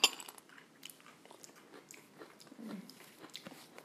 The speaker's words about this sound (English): So should we taste the cluster dry first? I want to taste the dry cluster.